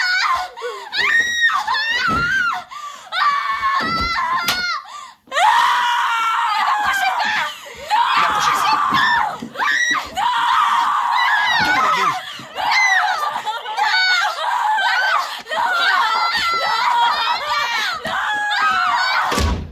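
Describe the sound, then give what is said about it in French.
Frenzied, shrill screaming and howling from a horror film soundtrack: many overlapping high cries and wails, sustained at length with only short breaks, sometimes mixed with crowd-like voices. “Vous écoutez France Culture, vous écoutez bien les cris de l'enfer, les cris du film L'Exorciste de William Friedkin de 1974”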